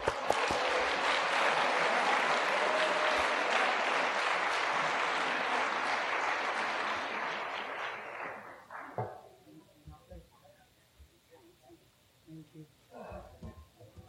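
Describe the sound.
Applause welcomes the guest speaker at a Saturday night recovery speaker meeting at Pine Lake. Dense clapping lasts about eight seconds, then tapers off into faint talking.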